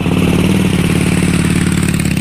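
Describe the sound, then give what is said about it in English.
Motorcycle engine ridden by a woman on a women's group ride near Chicago: a steady, throbbing mid-pitched putter, loud and even throughout, with no clear revving and no talk. “Now, that's a woman on a motorcycle.”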